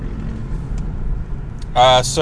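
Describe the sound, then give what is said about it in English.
A car pulls away from a traffic light onto the freeway, heard as a low, steady engine and road rumble that runs through the whole clip, with a voice briefly speaking near the end. “We're waiting for this light to change. Get on the freeway. Go. It changed. I'm going. We're driving. Drive harder.”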